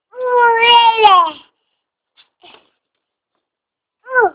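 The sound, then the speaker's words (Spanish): An infant crying: one loud, sustained wail with falling pitch at the start, a pause with faint shuffling, then the start of a second wail at the very end. “¡Un bebé!”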